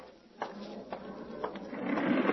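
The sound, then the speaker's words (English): An elevator rises to the roof. A few mechanical clicks come at roughly half-second intervals, followed by a whirring hum that grows steadily louder. “Well, it's getting near midnight. Better take the elevator up to the roof.”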